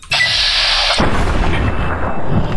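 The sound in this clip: A single heavy gunshot in a video game, a headshot on a giant bug: a steady high hiss gives way to a sudden loud, booming blast that leaves a long rumbling tail.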